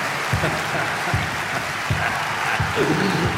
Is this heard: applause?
yes

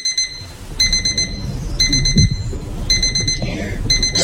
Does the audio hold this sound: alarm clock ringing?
yes

